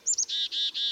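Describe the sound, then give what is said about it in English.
A black-capped chickadee gives its call: two short, very high notes followed by three longer, lower, buzzy notes, all quick and clear. “You can usually hear the black-capped chickadees call throughout fall and winter, but they aren't singing much.”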